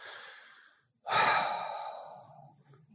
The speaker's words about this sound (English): let's just step back for a moment, take a pause. Deep breath.